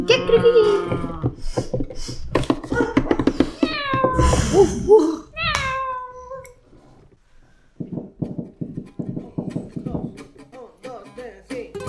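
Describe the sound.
Cat meows in a children's radio drama about bullying among kids: a few drawn-out, wavering cries in the middle, with people talking before and after them.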